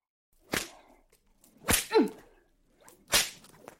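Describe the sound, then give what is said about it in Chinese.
A whip lashes three times in a dramatized scene, each stroke a sharp swishing crack about a second or more apart, with a brief whooshing tail after the second, with no talking. “是觉得主人的鞭子很痛吗？”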